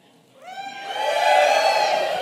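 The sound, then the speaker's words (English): A church audience shouts and cheers. A rising whoop opens it, then the voices swell into a loud, sustained roar that holds to the end. “And when he comes out, the people cheered like crazy. The people would cheer like crazy.”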